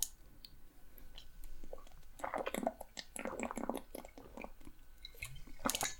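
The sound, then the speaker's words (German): Someone drinking: faint, wet swallows and lip clicks come in a few irregular clusters, with soft squishy gulping noises between them. “So, und jetzt muss ich erstmal was trinken nochmal und mich ganz kurz abregen”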